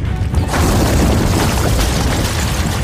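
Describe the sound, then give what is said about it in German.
A rockslide rumbles down from a mountain summit as boulders tumble, a loud, deep, continuous roar that swells in after a brief quieter opening and holds steady to the end, with no voices. “Das Rumpeln kam vom Gipfel des Berges. Das ist eine Gerölllawine!”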